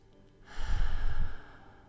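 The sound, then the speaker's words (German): A single slow breath, drawn in and let out during a guided breathing exercise with a hand resting on the chest. It forms one soft, airy swell lasting about a second, with no talk. “Und dann atme erstmal dreimal durch die Nase ein und durch den Mund wieder aus.”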